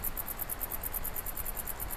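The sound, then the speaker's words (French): Crickets and grasshoppers chirp in a steady, rapid high-pitched pulsing over a constant rush of southerly wind in a high mountain valley, with no voices. “Ambiance venteuse, vent de sud, criquet, sauterelle pour cette carte postale.”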